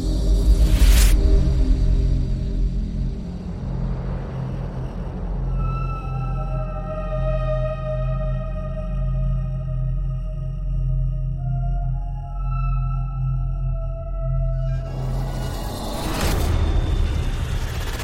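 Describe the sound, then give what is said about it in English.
Thunderstorm sounds play: deep, loud booms of thunder open and close the stretch, with a continuous low rumble and steady sustained tones in between. “Playing thunderstorm sounds.”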